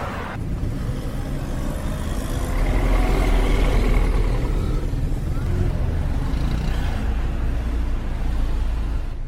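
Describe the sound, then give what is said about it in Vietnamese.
Busy traffic on Highway 101, with cars and trucks rushing past on a wet road, makes a continuous loud roar of engines and tire hiss that swells for a few seconds early on and then stays dense and steady. “Xe cộ qua lại thật tấp nập trên xa lộ 101.”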